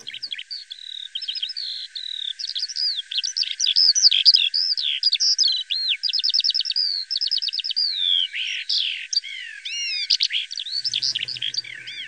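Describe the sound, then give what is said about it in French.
A skylark, a songbird of open farmland, sings an unbroken stream of rapid, high warbles, trills and whistles that runs for the whole stretch with no pauses. “Et il y a un petit oiseau chanteur qui s'appelle l'alouette des champs, qui était un oiseau d'ailleurs assez commun de nos campagnes”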